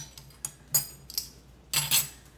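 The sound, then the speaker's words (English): Utensil clinking against a bowl while vanilla extract is mixed into batter: a few quiet, sharp metallic clinks at irregular intervals, the last ones a short cluster of taps, with no talk. “Just gonna mix it.”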